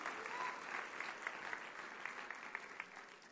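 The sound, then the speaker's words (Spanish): Church audience applause, a dense steady wash of many hands clapping with a few sharper individual claps standing out, fairly loud and continuous with no talk over it. “Aleluya, dale un aplauso al Señor.”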